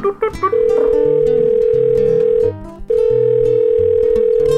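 A telephone dial tone hums loud and steady at a low, even pitch, stops for a moment partway through, then carries on unchanged.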